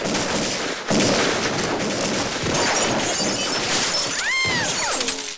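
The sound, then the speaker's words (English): Window glass shattering as gunfire is sprayed into a house, a loud, dense crash of breaking and crackling that runs almost without pause through the whole stretch, with shots mixed into the noise. “Steve ducks behind a wall as the glass is blown in.”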